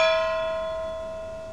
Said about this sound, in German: Gong, die Glocke hat zweimal geschlagen